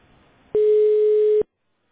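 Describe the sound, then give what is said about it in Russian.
A single steady telephone tone, just under a second long, marks a support-line callback connecting to a customer. It is mid-pitched, loud and unbroken, with faint hiss before it and silence after. “Обратный звонок. Соединяем с клиентом.”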